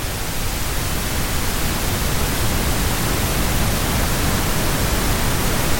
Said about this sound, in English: It's very like white noise now. I will say all of these are quite similar. There's violet noise, grey noise. There's loads of them, actually.